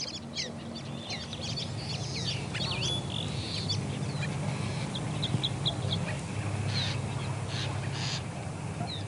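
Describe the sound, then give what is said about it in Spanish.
Calls of a tordo, a gregarious bird seen in flocks, as many overlapping chirps and short whistles run through the whole clip over a steady low hum. “Y ahora vamos con el ave invitada para el día de hoy. Es el tordo y ya regresamos.”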